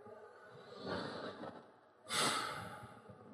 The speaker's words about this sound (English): It's just asking us to breathe. Let's all take a breath here.